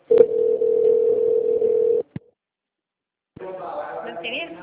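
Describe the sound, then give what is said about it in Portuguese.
A steady telephone line tone plays while a call is transferred through a company's human-resources phone menu. It ends in a click, and after a short silence a voice begins speaking. “aguarde, sua ligação será transferida para um de nossos atendentes.”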